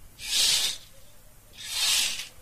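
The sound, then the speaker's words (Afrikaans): Curtains are drawn open with two soft, airy swishes, each a broad hiss about half a second long, separated by a brief quiet gap. “Maak sommer bykie die gordyne oop, asseblief, wat hier bykie natuurlike lig inkom.”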